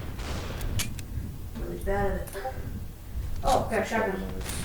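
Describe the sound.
Gunfire in a video game, including a shotgun: several sharp, brief bangs scattered through the stretch while a player talks over them.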